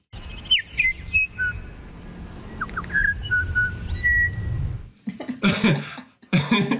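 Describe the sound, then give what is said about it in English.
Female bellbirds on Burgess Island sing clear, musical piping notes, a short tonal phrase of whistled notes at varied pitches, followed by a few rough, noisy bursts. “So this, just some examples of how musical a bellbird song can be. This is on Burgess Island, where the females all sing something that's vaguely related to a happy birthday kind of sound.”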